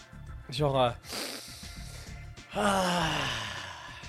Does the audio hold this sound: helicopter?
no

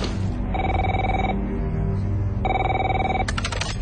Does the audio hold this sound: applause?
no

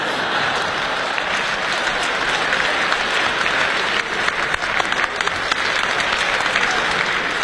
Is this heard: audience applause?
yes

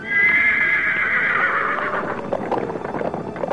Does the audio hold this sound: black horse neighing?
yes

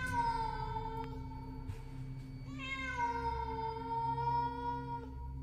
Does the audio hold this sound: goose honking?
no

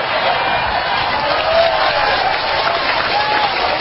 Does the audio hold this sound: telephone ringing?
no

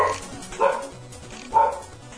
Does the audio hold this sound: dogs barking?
yes

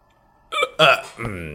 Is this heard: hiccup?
yes

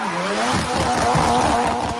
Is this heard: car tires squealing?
yes

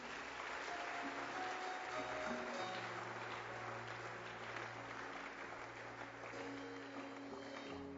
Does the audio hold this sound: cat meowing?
no

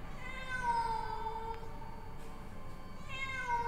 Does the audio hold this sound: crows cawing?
no

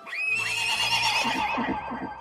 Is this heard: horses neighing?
yes

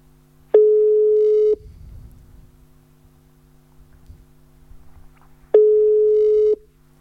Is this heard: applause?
no

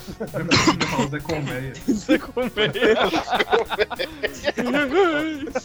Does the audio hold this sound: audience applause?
no

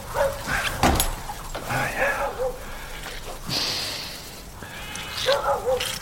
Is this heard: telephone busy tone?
no

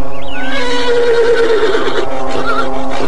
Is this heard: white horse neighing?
yes

